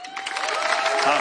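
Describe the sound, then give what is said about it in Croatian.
Applause rises from an audience at a music festival for a debut songwriter, a dense, steady patter of clapping that holds at an even level across the short stretch. “autor je debitant na našem festivalu, iako se glazbom bavi već duže, pa ćete mu pljeskat”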